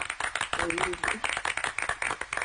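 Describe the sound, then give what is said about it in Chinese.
Hands clap in a quick, steady rhythm to encourage a nervous singer, with a short stretch of voice partway through. “刚才我给您鼓掌，就是想让您别紧张，咱们继续唱”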